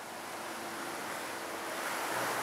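Sea waves wash onto the shore in a steady, broad rushing hiss of surf that swells slightly louder toward the end, with no voices.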